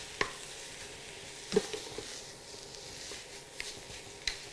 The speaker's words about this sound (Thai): ค่อยๆผัดไปค่ะ